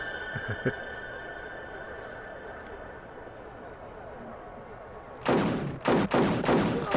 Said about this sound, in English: Dang, you get a RoboCop gun? I like that he missed four times.